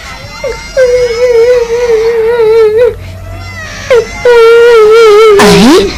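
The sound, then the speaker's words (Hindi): Someone cries and wails in long, sustained, quavering moans, a few drawn-out cries separated by short pauses, swelling into a louder sobbing burst near the end. “ये तो किसी के रोने की आवाज है। कौन रो रहा है और क्यों रो रहा है? देखो तो ये आवाज कहाँ से आ रही है?”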